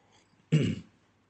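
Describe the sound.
A single short throat clearing, a brief gruff rasp that rises out of near silence and quickly fades.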